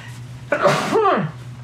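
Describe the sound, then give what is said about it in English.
A single human sneeze: a sudden loud burst with a short breathy, falling tail, heard alone over a faint steady hum. “sneeze, bless you.”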